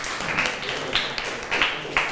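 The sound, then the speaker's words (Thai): Students in a classroom clap for a group: a low, steady patter of applause with a few sharper, louder claps standing out at intervals. “นักเรียนปรบมือให้กลุ่มที่1หน่อย”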